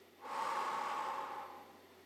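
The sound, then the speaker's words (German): One slow, deep exhale, a soft breathy rush of air that swells, holds for over a second and fades, heard alone and quietly. “Und atme einmal ganz tief aus.”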